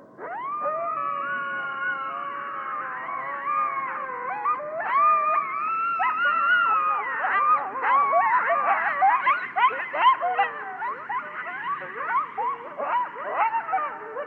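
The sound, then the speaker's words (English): Coyotes in Yellowstone howl in overlapping wavering, sliding high-pitched cries that build into a busy chorus of short yips and barks, alone without talk. “This is the sound of coyotes here at Yellowstone.”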